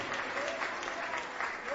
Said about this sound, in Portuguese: palmas para Jesus.